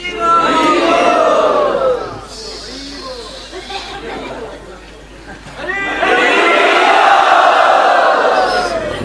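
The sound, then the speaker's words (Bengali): A crowd at a Krishna devotional gathering loudly chants "Hari Bol" together in two strong surges of massed voices, with a quieter murmur of chatter between them. “তা আপনাদের এই হরিধ্বনি শুনে আমার মনে হচ্ছে যে আপনারা”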